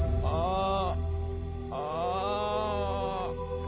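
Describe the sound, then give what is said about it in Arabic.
Frogs croak in three long, pulsing harmonic bursts over a constant shrill insect-like drone that continues throughout. “سامع شيء؟ هذا صوت الضفادع يا عم وصوت الطيور”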